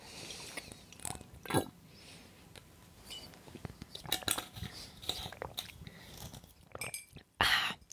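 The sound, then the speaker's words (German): Faint gulping and swallowing as someone drinks from a bottle, with many soft wet mouth clicks scattered throughout and a louder burst of noise near the end. “Also ich trinke nochmal kurz die Flasche hier aus.”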